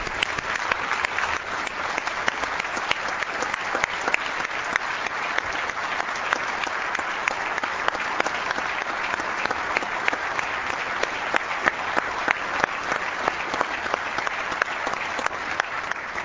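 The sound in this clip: Applause welcomes award winners, including the Boys and Girls Club Youth of the Year, in a state House chamber. Dense, steady clapping runs loud and even for the whole stretch, with no voices rising above it.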